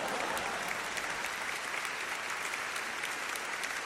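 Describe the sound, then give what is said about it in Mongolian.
Audience applause at a Christian gathering: dense, steady clapping from many hands that holds at an even, moderate level throughout, with no voices over it. “Өөрийнх нь төлөө алга ташаарай.”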